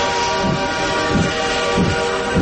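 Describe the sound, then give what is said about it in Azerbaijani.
A train departing, with a steady horn-like tone held throughout over a rhythmic series of low chugging pulses, loud and with no talk. “Dikkat dikkat, seçki qatarı 101.7 FM stansiyasından yola düşür.”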